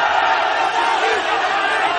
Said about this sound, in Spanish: Un centenar de hombres gritan en la plaza de una aldea de Madagascar, alrededor de un coso en el que pelean una cobra y una nutria. Los espectadores hacen apuestas.